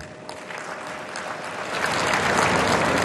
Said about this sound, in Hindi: इधर ताली बजाने में देर हो गई.